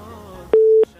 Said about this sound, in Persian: میریم تماس بعدی رو وصل میسازیم ببینیم کدام عزیز ما هست، از کجا تماس گرفته.